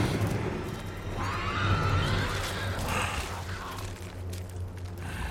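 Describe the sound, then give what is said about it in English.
A horse whinnies, one wavering, strained cry rising over steady loud background noise, with no talk. “Oh, horsey. Mad horsey.”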